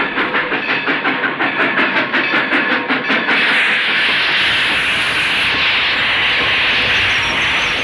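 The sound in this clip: Steam train arriving at Nashville station as a radio drama effect: rhythmic chuffing clatter for about three seconds gives way to a loud, steady hiss of escaping steam.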